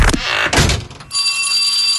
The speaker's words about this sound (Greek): τώρα που χτύπησε το πρώτο κουδούνι